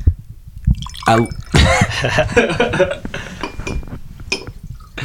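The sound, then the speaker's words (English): A drink is poured into a glass, with gurgling liquid and light clinks of glass. The sounds come in a few uneven, moderately loud bursts. “I'll pour up real quick”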